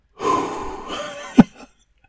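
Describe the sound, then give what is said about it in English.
Deep breathing from someone settling into a reclining chair: one long, airy breath, then a sharp, sudden puff of air and a short fading tail. “Let me take a couple deep breaths.”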